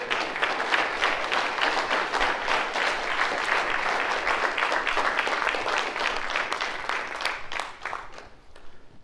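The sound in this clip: An audience at a lecture claps to welcome a speaker. The dense applause holds steady for about eight seconds, then thins and fades away.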